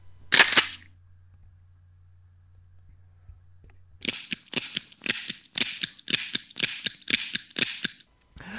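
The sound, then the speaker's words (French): A gunshot sound effect: one sharp, loud crack, then near-silence over a low hum, and after a pause a rapid run of similar sharp, evenly spaced bursts that continues to the end. “Moi, je vais me tirer une balle parce que j'en peux plus.”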